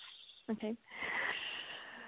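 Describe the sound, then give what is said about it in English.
A deep inhale during a guided breathing exercise: a long, soft, airy intake of breath lasting about a second, coming just after a brief voiced sound and fading into quiet. “And so we're just going to go another deep breath in.”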